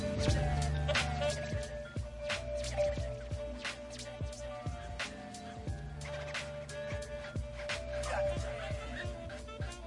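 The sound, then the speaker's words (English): Dog barking in many short, sharp yips and bow-wows, fairly faint, over a busy background. “This fucking doggy. He isn't even trying to catch the shit today.”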